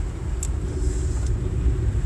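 A car drives along just before joining the highway, giving a steady, dense low rumble of engine and road noise that stays even throughout with no voices.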